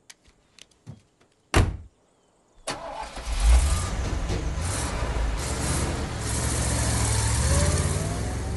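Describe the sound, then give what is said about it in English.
A car's door clicks a few times and then slams. After a short pause the engine cranks and starts, revving up, and a steady loud engine roar follows as the car drives off. “she watches her father drive towards the dome”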